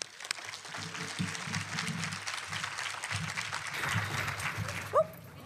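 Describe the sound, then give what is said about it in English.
Audience applause welcomes a speaker at a business conference session, a steady wash of clapping that holds at an even level for several seconds. “So please put your hands together to welcome Lori.”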